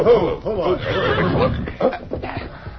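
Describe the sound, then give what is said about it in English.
Horses whinnying as three riders rein them up, several loud, wavering neighs in quick succession with shrill rising and falling cries. “Finally, the three horsemen reined up.”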